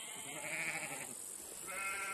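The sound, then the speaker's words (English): Sheep bleat faintly in a mixed herd kept with goats by nomads, giving wavering, nasal calls over a hissy background. “Sheep and goats are always kept together. Sheep graze in one spot, while goats keep traveling while grazing.”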